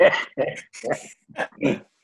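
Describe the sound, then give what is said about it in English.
An 18-year-old dog barks during an online meeting: five short, rough barks in quick succession, each a brief burst with pauses between, heard alone without talk. “So now we know who the barking dog is.”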